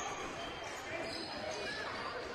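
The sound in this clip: Basketball dribbled at the top of the key during a game, with faint repeated bounces under a constant wash of background noise.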